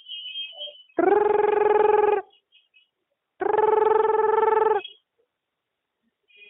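A telephone rings in two long, buzzing electronic tones separated by a silent pause, each ring steady and even in pitch.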